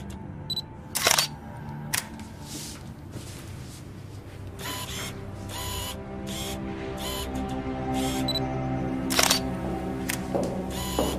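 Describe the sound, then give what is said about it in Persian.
Camera shutter clicks from photos being taken: many sharp, crisp snaps at irregular intervals, some in quick pairs, sounding over a steady low background hum. “چند تا عکس بریم بندازیم ولی ببینم کی گفته ازم عکس بگیره.”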